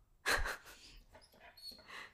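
A dog makes faint, breathy snuffling sounds: a short snorting burst first, then soft, thin whimpering whines.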